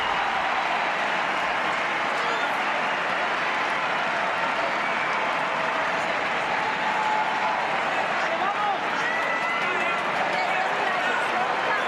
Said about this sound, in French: Sur l'ovation là encore, du stade de Leval d'Oslo.